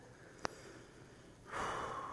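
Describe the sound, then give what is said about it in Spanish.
A deep, slow inhale during a guided spiritual lesson. A soft, breathy rush swells in the final half-second, after a single brief click and a faint, quiet background. “Inhala bien profundo.”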